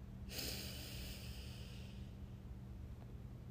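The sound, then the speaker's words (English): A deep inhale through the nose during a guided belly-breathing exercise: one soft, airy intake lasting about two seconds, faint over a steady low hum. “Inhale.”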